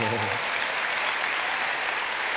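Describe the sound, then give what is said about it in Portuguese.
Applause from a church audience: a dense, steady patter of many hands that fills the whole clip, with a voice briefly audible at the start. “Aplauda o Senhor Jesus.”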